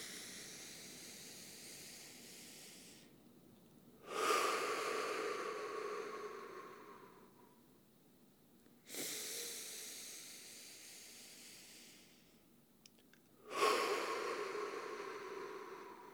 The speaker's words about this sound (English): let's take three breaths together in this oneness, in through the nose and out through the mouth. Inhale.